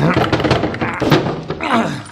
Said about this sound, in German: das Schubladenschloss. Ist offen. Zieh halt mal ein bisschen fester.